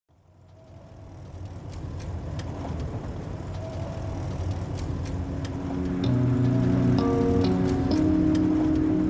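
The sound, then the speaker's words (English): Steady engine and road rumble from a car driving through farmland outside Lemoore, California, a continuous drone that builds gently at the start and grows a little louder toward the end. “Driving through farmland outside Lemoore, California.”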